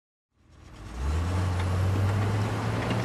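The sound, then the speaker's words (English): A Komatsu VD355A bulldozer's engine comes to life from silence, swelling within a second into a loud, steady, deep diesel rumble with a strong low drone that holds evenly to the end. “Listen, Greg, I've had it with the wussy Nissan Versus. The Komatsu VD355A Bulldozer is who I really am as a commuter.”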